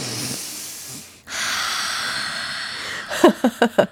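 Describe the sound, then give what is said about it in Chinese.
Deep breath performed as a sound effect: a long airy inhale lasting about two seconds, followed by a quick run of four short voiced bursts. “第一，就是你可以在当下就透过身体管理一下你的情绪，先做深呼吸。”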